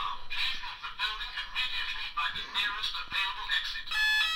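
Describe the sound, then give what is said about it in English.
A fire alarm going off in a room sounds as many shrill, pulsing electronic beeps in quick, regular repetition. It stays loud and insistent, and the tone turns steadier and more sustained in the final moments. “That's the fire alarm in my room.”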